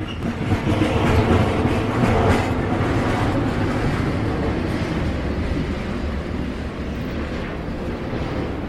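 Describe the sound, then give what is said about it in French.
A long train of many wagons rolls along the rails with a loud, steady rumble and a continuous clatter of wheels that hardly changes in level. “j'entends encore le roulement du train sur les rails vides”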